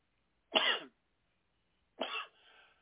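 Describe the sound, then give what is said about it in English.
Two harsh coughs from a preacher in the middle of a church sermon, each a short loud burst with a gap between them, the second trailing into a softer rasping tail. “And just forgive me for my coughing tonight.”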